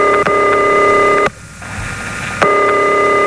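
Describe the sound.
Ringback tone of an unanswered telephone call in a phone-in prize call: a loud, steady electronic tone sounds, stops for about a second of near silence, then resumes in a second burst.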